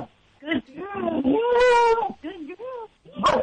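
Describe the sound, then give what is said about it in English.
A dog vocalizes on a speak command, giving several drawn-out, whining, howl-like yowls that waver in pitch rather than short sharp barks. The bursts are fairly loud, with quiet gaps between them. “Good girl. Speak. Wow, that's some good barking. I like that. That was great.”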